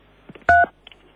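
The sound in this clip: Telephone keypad tone from pressing pound and 3 on a phone: one loud, steady electronic beep about a fifth of a second long, with a few soft clicks before and after.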